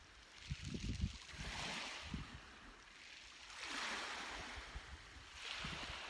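Ocean waves surge and wash in repeated swells, each rising into a broad hissing roar and then ebbing, with low rumbling and some wind buffeting underneath.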